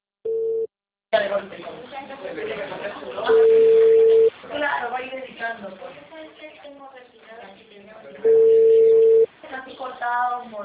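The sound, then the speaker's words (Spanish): A steady telephone tone sounds twice on a line after a dropped call, each a long flat beep about a second long, spaced several seconds apart among thin, phone-filtered voices talking. “se cortó la llamada.”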